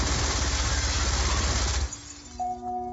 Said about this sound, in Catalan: ¡Granada!